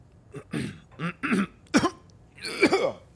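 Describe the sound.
A man coughs and clears his throat in a few rough, throaty bursts spread over about three seconds, ending in a longer, raspier clearing.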